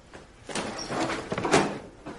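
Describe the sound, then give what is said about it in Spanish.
A door is opened at night as a man enters a room, giving a soft scrape and a few faint knocks and creaks spread across the moment. “abre la puerta, entra y se acerca a ella”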